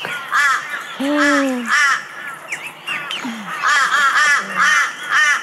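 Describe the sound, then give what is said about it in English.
Harsh cawing from a group of crows in a played video. The loud caws repeat in a rapid, ragged series across the whole clip. “A murder of fucking crows. That's what a collective noun for crows is.”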